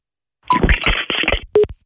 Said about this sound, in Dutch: Heeft hij nou opgehangen? Ja, hij heeft opgehangen.